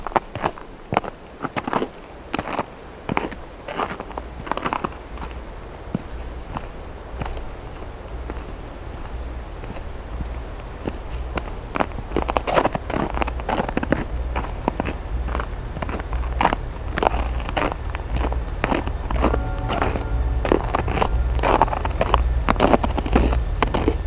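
Footsteps walking on icy winter ground, many crisp, crackling crunches in a steady walking rhythm, continuing without pause over a low background rumble.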